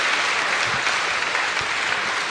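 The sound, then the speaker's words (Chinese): Dense, steady applause from a church gathering for twenty-five first-time participants, a continuous wash of many clapping hands at even loudness throughout, with no voices over it. “再次为他们鼓掌，第一次出来的鼓掌。”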